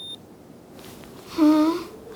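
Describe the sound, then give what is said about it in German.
An ear thermometer beeps after taking a temperature: one short, fairly clear electronic beep with a slight pitch sweep, rising from quiet background near the middle and fading after it, with no speech. “Mit dem kann man die Körpertemperatur im Ohr messen. Ganz einfach. Willst du es selber ins Ohr halten? Halt es so lange, bis es piept.”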